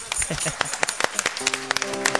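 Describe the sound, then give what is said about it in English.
A church audience claps hands during worship, with scattered, irregular claps of moderate loudness and no steady rhythm. “Give God a big hand clap.”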